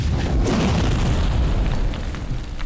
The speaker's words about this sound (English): The ball of flame shoots forward and halfway through suddenly burns white hot and grows even larger.